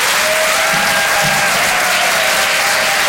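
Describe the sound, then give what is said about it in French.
Loud, unbroken audience applause at a comedy show at the Apollo in Paris, a thick, even wash of clapping that holds steady throughout. “Je vous demande de faire un maximum de bruit, s'il vous plaît, pour Vincent Cerussi.”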